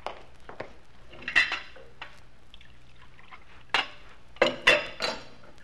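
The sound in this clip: Cups and dishes clink as coffee is served, with sharp clatters of china and cutlery coming in several scattered clusters over a quiet background, and no talk.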